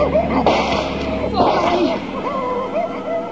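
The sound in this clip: Two sharp gunshots ring out in a German radio drama scene where people force a door and fire at someone escaping, the bangs spaced about a second apart amid excited voices.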